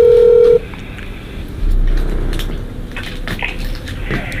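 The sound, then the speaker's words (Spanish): A telephone keypad tone sounds as someone dials the police from an abandoned property: one loud, steady electronic beep cuts off sharply, followed by low rustling and handling noise. “decide marcar el número de la policía.”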